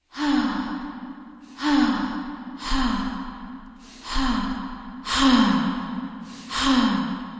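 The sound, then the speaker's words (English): Breath sounds recorded by vocalists experimenting with breath: six sighing exhalations in a slow, uneven series, each starting strongly, dipping slightly in pitch, and fading before the next. No words are spoken. “All of them draw on a sound bank I created for this installation by asking vocalists based in Chicago to record themselves experimenting with breath.”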